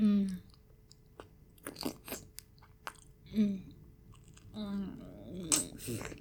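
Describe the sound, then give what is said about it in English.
Chewing and biting into a juicy nectarine gives wet, crunchy bites and squelching chews, with soft vocal murmurs between them, faint overall. “This is the sweetest nectarine I have ever tasted.”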